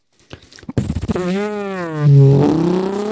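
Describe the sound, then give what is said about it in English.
A voice imitates a motor starting up. A few sputtering clicks lead into a loud, buzzing drone whose pitch wavers and climbs before settling into a steady hum. “So I'm gonna just start my motor real quick.”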